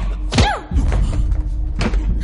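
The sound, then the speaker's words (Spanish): A punch to a man's nose lands as a heavy thud, followed by a brief cry falling in pitch, over a constant low rumble. A second dull thud comes near the end. “Le da un puñetazo en la nariz. El hombre sangra.”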